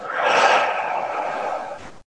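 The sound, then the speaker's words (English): A single long, deep exhale during a guided breathing exercise, a steady airy rush of breath lasting about two seconds that eases slightly before cutting off. “Deep inhale. And exhale.”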